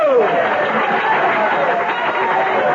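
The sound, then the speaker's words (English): Audience applause for a senator-elect, a steady wash of clapping mixed with crowd chatter that stays even and fairly loud from start to finish. “Your applause is heartwarming, and I am grateful.”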